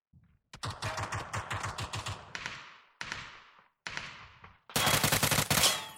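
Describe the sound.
Rapid automatic gunfire comes from a video game in several bursts of fast, rattling shots separated by short gaps. The fire is fairly faint overall, and the final burst is the loudest and densest.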